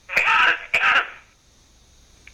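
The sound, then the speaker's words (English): Two loud, raspy bursts of throat clearing, each about a third of a second long, follow one another closely before the sound settles into near silence. “let me clear my throat.”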